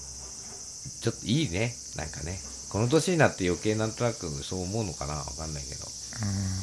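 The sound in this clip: Cicadas chirp on a summer afternoon in a continuous high, even buzz that carries through the whole stretch while people talk over it.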